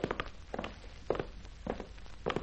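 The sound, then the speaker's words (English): Footsteps walking down a narrow passage, a few scuffing, irregularly spaced steps over a low, steady background, with no voices. “At any rate, no car can get down this narrow passage, so we can afford to walk a little till we get to a main thoroughfare.”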